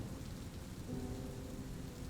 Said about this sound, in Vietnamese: mà bây giờ mưa lớn vậy